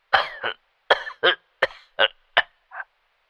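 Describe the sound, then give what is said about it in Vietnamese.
Heavy, harsh coughing from an ill old man heard over a phone line: eight sharp coughs in a ragged series, several coming in quick pairs, with short silences between them and no talk. “Tiếng ho sặc sụa ở đầu dây bên kia làm cho ông cầu lo lắng.”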